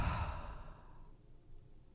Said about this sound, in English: Inhale through your nose. Exhale through your mouth.